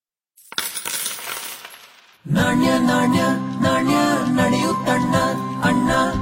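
Coins drop with a loud, jangling metallic clatter that then gives way to a sustained bright ringing and jingling as they settle.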